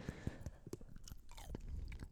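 Someone chews a white quark sweet, with soft irregular crunching bites and wet mastication sounds repeating many times at close, fairly quiet level.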